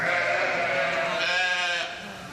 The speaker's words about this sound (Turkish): İki koyunun da dilleriyle temizlemeye ve sahiplemeye çalıştığı yeni doğan kuzu iki taraftan gelen ilgi karşısında ne yapacağını şaşırdı.